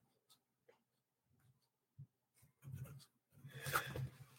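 Someone jots a note down on paper. Very faint, sporadic scratching starts out sparse, then thickens into busier, slightly louder strokes toward the end.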